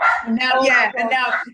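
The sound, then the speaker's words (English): A dog barks and yips excitedly in a quick, loud run of several bursts, with talk overlapping. “My dog's gone nuts. I've got a dog too. I love it. And my dog's growling.”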